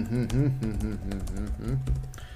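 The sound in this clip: Quick clicks of typing on a computer keyboard patter faintly beneath talking.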